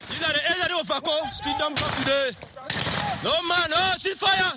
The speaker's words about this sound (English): About 30 armed men in a video shoot in the air, claiming to be separatist fighters in Bouya, an English-speaking town in Cameroon's southwest region.